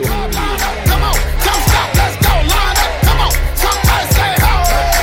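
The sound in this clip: A radio DJ drop: a loud, punchy produced jingle of rhythmic hits with repeated swooping downward sweeps, layered with crowd-like shouts and whoops.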